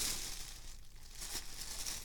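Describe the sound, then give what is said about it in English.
Plastic bag crinkling as someone handles it while checking for a pair of sweatpants inside: a faint, continuous rustle of papery crackles with a few slightly brighter bursts, no voices. “And I believe they are in this bag. There's a plastic bag here. Should I check?”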